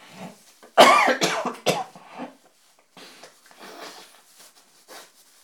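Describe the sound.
A person clears their throat with a loud, harsh rasping burst followed by several shorter, weaker rasps, then softer rustling sounds.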